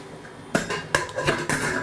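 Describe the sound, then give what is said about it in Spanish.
Metal clanks as a lid is pushed and fitted onto a cooking pot with a valve: four sharp, fairly quiet knocks in quick succession. “Tenemos aquí la tapa de la olla. Vamos a encajarla.”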